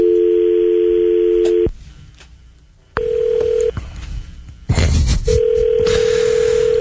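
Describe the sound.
Telephone call tones: steady low electronic hums that start and stop with gaps between them, with a brief burst of noise before the last tone. No one speaks.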